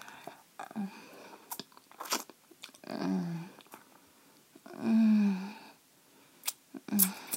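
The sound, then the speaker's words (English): Wet eating sounds as dessert is scooped up with fingers and tasted: soft smacks, clicks and crunches come in irregular bursts, with a couple of drawn-out vocal murmurs between them. “I know we haven't had dinner yet, but I just want a little bit of dessert now. I'm just gonna use my fingers to scoop some up and...”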